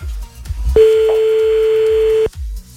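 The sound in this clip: A telephone ringing tone sounds while calling a listener: one long, steady, mid-pitched tone that starts and stops abruptly, over a soft, regular low thumping beat.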